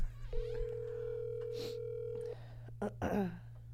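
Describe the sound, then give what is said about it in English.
An outgoing Facebook call ringing: a single steady mid-pitched ring tone holds for about two seconds, followed by a few short bursts of noise. “Maybe we should call him on Facebook. Oh, yeah, I should call him on Facebook.”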